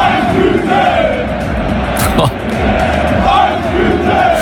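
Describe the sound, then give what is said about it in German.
A stadium crowd of 45,000 football fans roars at a cup match between HEBC and BVB. The noise is loud and continuous, with massed chanting voices throughout. “Der HEBC hat letztendlich doch 0-5 verloren, aber die Stimmung im Stadion vor 45.000 Fans war einfach so krass, hört mal selbst.”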